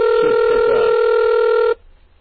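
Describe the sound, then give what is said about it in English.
A telephone rings after being dialed into from a computer running terminal software: one steady, buzzing electronic ring tone holds at an even loudness for under two seconds, then cuts off abruptly into faint hiss. “should pick up. I dialed up into this phone using Hyper Terminal.”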